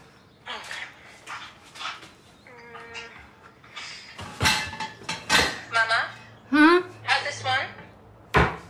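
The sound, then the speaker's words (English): A cooking pot being grabbed while making adobo, with a few sharp metallic clanks and knocks breaking through ongoing talk. “Okay, so while that's going, go ahead, go grab your pot.”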